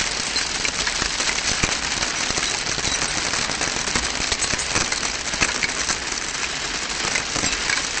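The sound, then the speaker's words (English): Hailstorm of large ice chunks bouncing all over sleepers with no roof above them: a dense, even hiss of countless sharp impacts with scattered louder cracks, steady throughout and with no talk. “As they sleep, a hailstorm sends large chunks of ice down on them. The hail bounces all over, and the two wake up.”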